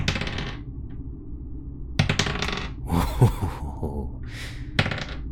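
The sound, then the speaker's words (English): Dice rolling in a coffin, heard as several short bursts of bright rattling clicks with quiet gaps between them. Each burst sounds like small hard pieces clattering together. “I'm rolling my dice.”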